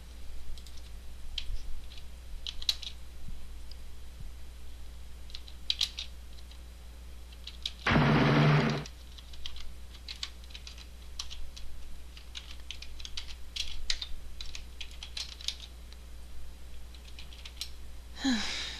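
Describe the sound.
Typing on a computer keyboard: a long run of faint, irregular key clicks in uneven bursts, broken midway by one brief, louder noise.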